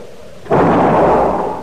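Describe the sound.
A single gunshot fired by a woman on her land, with a sudden sharp onset that swells into a broad, loud booming rumble, sustained for about a second before slowly fading, with no voices.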